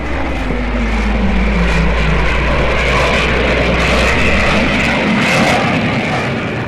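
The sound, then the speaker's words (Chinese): A J-20 stealth fighter jet takes off with a loud, steady roar and broad hiss that fill the whole stretch. No voices are heard. “大家快看，现在起飞的就是歼二零。”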